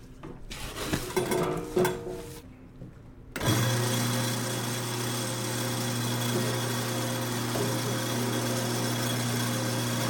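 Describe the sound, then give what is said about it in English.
An electric grinder whirring through a mix of spices: a loud, steady motor drone with a constant hum that starts abruptly after a few seconds of rustling and clinking, then holds unchanged to the end. “I'm gonna put them all in there and then I'm gonna mix it and then I will grind them.”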